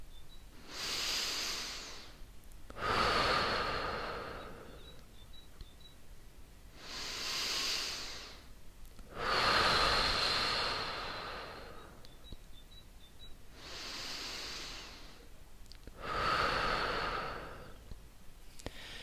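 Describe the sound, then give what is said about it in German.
Slow, deep breaths drawn in and let out, with six airy breath sounds forming three even in-out cycles over the stretch. The rush of air is moderately loud and rises and falls in a steady rhythm, with no talking. “Atme ein paar Mal tief ein und aus und dann sprich mir nach.”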